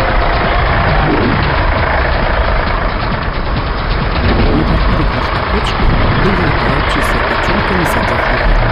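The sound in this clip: Heavy truck engine rumble in an animated film scene: a dense, loud, continuous low drone with a rattling texture, steady in level from start to finish.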